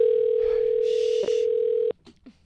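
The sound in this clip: A telephone dial tone hums as a steady, loud, pure tone while dialing, breaks briefly midway, then cuts off abruptly and is followed by a few faint clicks.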